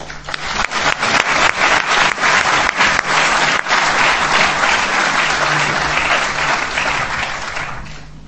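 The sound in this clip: Loud, warm applause from an audience welcoming a speaker at an evening talk. Several sharp individual claps stand out early, then the dense clapping holds steady and eases slightly toward the end.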